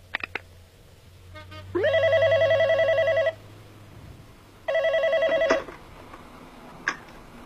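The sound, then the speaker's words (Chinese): A telephone rings in a monitored call recording, two bursts of bright warbling electronic ring tone, the second shorter, with a few clicks around them and no talk. “五分钟以前，自称太子港行动指挥中心的电话又打进了酒店，这是监听录音，请听。”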